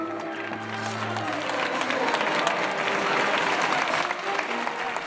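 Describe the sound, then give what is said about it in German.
Crowd applause and cheering as bullfighters enter the Plaza de Toros in Mexico, the world's largest bullring. Steady, dense clapping holds at an even level throughout, with a low sustained tone early on. “So hört sich das an, wenn Stierkämpfer in die Plaza de Toros in Mexiko hineinlaufen. Die Plaza de Toros ist die größte Stierkampfarena der Welt.”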